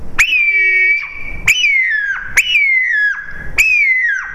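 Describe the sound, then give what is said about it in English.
A hawk call blown on a tube call for turkey hunting: four shrill, piercing screams, each with a sharp attack and a sustained high tone that drops in pitch at the end. “I use it as a hawk call, that high-pitched shrill sound that you don't even hear, sort of like a dog whistle or something.”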